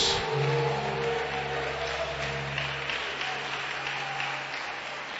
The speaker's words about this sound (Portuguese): você vai oferecer a Deus a melhor salva de palmas.